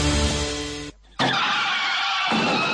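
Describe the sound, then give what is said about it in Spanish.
A car skids in a traffic accident, giving a loud, harsh burst of tire and engine noise. It cuts to a brief near-silent gap, then returns as a second loud, sustained noisy stretch with no talking. “Este es el sonido de un accidente de tráfico.”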